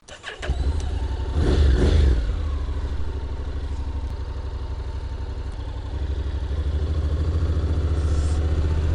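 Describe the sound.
A motorcycle engine starts and revs hard before pulling away onto the road, its rough mid-pitched drone holding steady and then swelling louder again toward the end.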